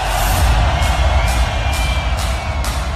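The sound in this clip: A concert crowd cheering and making noise when urged on by the performer, a loud, sustained roar with regular thumping beats underneath.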